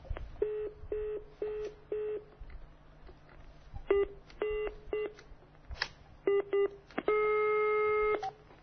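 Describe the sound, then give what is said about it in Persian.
Telephone signal tones from a call being placed on a busy line: a few evenly spaced busy-signal beeps, then clusters of dialing tones and one long steady tone, with no talk. “اجازه بدید که من تلاش کنم ببینم میتونم موفق بشم شماره رو بگیرم.”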